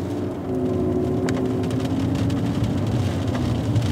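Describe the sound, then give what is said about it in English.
A car drives through Mountain View Cemetery in Oakland, California, giving a continuous low rumble of engine and road noise that stays steady throughout, with no talk. “So this is the entrance, and so there's a main avenue. We are driving in Mountain View Cemetery in Oakland, California.”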